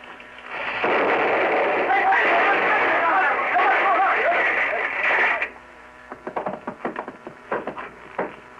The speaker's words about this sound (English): I'll fire it out the window.